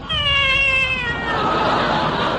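A cat yowls in one long, drawn-out cry that holds its pitch and then sags slightly before dissolving into a rough, noisy tail, loud and alone.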